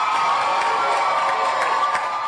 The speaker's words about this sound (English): Cheers in Nashville, where Justin Jones has been unanimously reinstated to the Tennessee legislature.